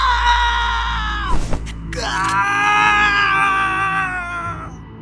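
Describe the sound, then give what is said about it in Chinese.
A man shouting loudly with his head thrown back in a frenzied outburst in an audio drama: a strained, drawn-out cry that breaks briefly midway, then resumes and holds steady for several seconds over a low background drone. “他仰头大喊一声”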